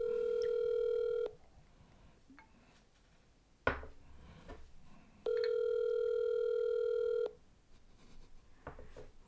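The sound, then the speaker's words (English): A telephone call being placed and ringing: two long, steady ring tones separated by a quiet gap with a sharp click and faint clattering, then soft rustling after the second tone. “Let's call him, see if it works.”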